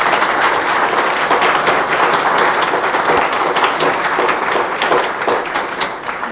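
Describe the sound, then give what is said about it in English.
A large audience at a talk on family and internal medicine physicians breaks into a big round of applause, dense and even throughout, easing slightly near the end. “I think we need to get a really big round of applause for these two men.”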